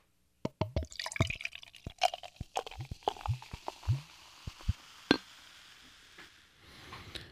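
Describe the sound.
Beer brewed with orange zest, coriander and raw hops being poured: irregular splashes and drips, then a soft, steady hiss of liquid toward the end. The pour is fairly quiet, with no voices.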